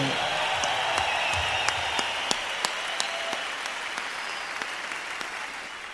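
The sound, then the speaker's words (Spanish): Audience applause at a rock gig: dense, steady clapping that holds at an even loudness throughout, with a few sharper individual claps standing out from the wash. “que se oiga un aplauso chido para ellos”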